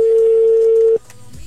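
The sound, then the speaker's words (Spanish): A ringback tone sounds on a telephone line as an outgoing call rings, a single steady mid-pitched tone held for about a second before cutting off into faint line noise. “Ahí está, está sonando. Está sonando en este momento. Ok, ahí está sonando.”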